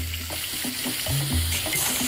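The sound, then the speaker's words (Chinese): Sea snails with their tails clipped are stir-fried over high heat in a wok. A continuous sizzling hiss carries frequent short knocks and scrapes from stirring. “对于坑螺的烹饪，当地人喜欢大火爆炒。”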